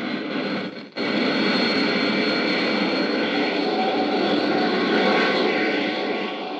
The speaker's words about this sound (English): Slowly, the ship settles down, tail first.